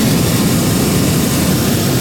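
A hot air balloon's propane burner fires overhead, a loud, steady, low roaring blast that holds unbroken for the whole stretch with no voices.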